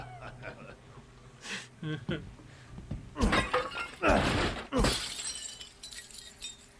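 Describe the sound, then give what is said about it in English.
Items being smashed with a knife in a video game, heard as a few loud shattering, glassy crashes with clattering debris after each hit, over a steady low background. “Smash away with your trusty knife. There's plenty of items to find in your travel.”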